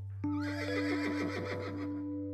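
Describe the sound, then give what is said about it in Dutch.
A horse lets out one long, loud whinny with a wavering, quavering pitch that carries for about two seconds over a steady low hum. “Het paard staat al te trappelen.”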